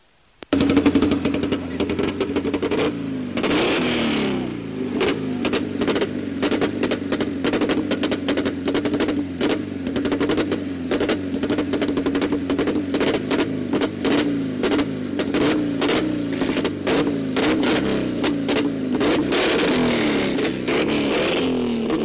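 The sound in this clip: A BMW car engine revving hard, with repeated rising and falling revs and rapid crackling pops throughout, loud and continuous.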